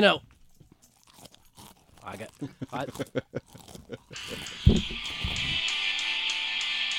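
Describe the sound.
Crisp crunching of someone eating, short bursts mixed in with people talking, before a loud, steady wash of sound takes over.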